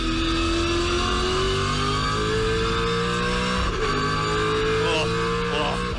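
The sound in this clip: A V8 Supercars racing car engine revving on board, a loud continuous roar whose pitch climbs steadily, drops briefly mid-way at a shift, then climbs again.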